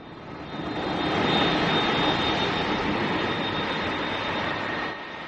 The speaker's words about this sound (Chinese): 随着一架塞尔维亚航空专机的安全降落，一场简单而不失隆重的迎接仪式在首都贝尔格莱德国际机场举行。